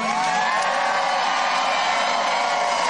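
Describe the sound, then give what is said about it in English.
An audience cheers and whoops in a loud, steady, unbroken wall of sound that holds at full strength for the whole stretch. “Wow, that's the first time I've been cheered for that.”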